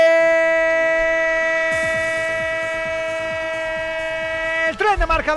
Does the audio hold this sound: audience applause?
no

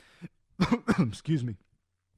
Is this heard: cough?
yes

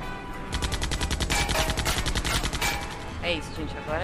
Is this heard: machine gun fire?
yes

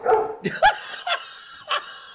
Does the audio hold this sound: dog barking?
yes

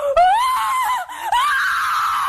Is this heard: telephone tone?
no

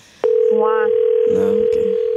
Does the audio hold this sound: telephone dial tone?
yes

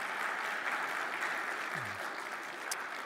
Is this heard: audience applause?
yes

